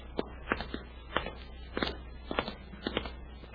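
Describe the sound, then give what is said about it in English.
Footsteps walking down a hotel hallway: a quiet, even run of soft shoe taps at a steady walking pace. “They step out of the elevator and walk down the hall.”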